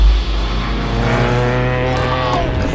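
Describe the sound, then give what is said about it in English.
Loud, steady droning roar of a small plane engine as it taxis across a rooftop and plummets off the edge, a dense harmonic engine tone that holds throughout. “Alice takes cover behind a dumpster as the plane taxis across the roof. Luther kicks the locked door open and races after the plane with Alice and Chris. The plane plummets off the edge of the roof.”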